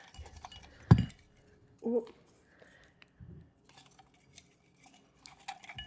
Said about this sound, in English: we just put the BTS members' names in a cup, mix them up, shake it up, and then randomly draw two names.